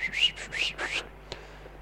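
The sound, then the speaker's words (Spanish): A person whistles a quick run of a few shrill, rising notes, loud and clear over about a second, followed by a faint click in the quiet that comes after. “bajan así con un palo y silban y hacen.”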